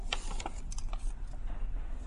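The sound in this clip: Wiping a blackboard during a mathematics lecture, heard as a steady, scratchy rubbing noise with small ticks mixed in that runs through the whole two seconds.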